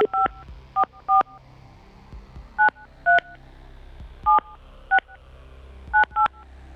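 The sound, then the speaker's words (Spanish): Touch-tone keypad beeps as a telephone number is dialed: ten short dual-tone presses in uneven groups, several in quick pairs with longer gaps between, over a low steady hum. “A ver, Blanquita, si contesta. Blanquita, a la una... A ver, Blanquita, 55, 44...”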